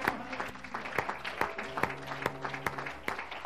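A church audience claps hands in a steady, even rhythm, sharp clap accents recurring over sustained musical tones at a moderate, fairly soft level.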